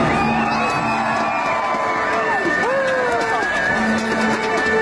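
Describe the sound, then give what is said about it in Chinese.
A crowd cheers at a women's basketball championship game in an arena: dense, loud, continuous shouting and whooping that holds steady throughout. “欢笑喜悦欢呼昨晚充斥着首钢篮球中心，北京女篮85-63战胜山西队，以总比分3-0获得总冠军”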